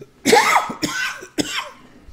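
Coughing from a piece of coffee bean stuck in the throat: three harsh, raspy coughs in a row, the first the strongest, each breaking off into a short pause.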